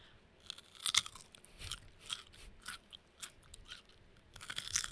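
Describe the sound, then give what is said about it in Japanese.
Crunching bites and chewing of a raw carrot, a variety that can be eaten raw: a few sharp, crisp crunches followed by softer, moist chewing sounds, fairly close and with no talk over them. “ちょっとじゃあ人参いいですかね、今かじってみて、 かじっちゃいます、 はい、人参がどんな味なのかちょっと試してみたいと思います”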